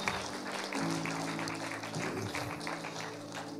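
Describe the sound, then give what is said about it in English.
Applause from a church audience during a Sunday evening service: dense, steady clapping that runs unbroken through the whole stretch at an even level. “Let's give it up for our brother.”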